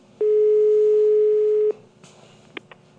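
A ringback tone on an outgoing telephone call sounds as one steady, level tone lasting about a second and a half. Quiet line noise follows, with a couple of faint clicks.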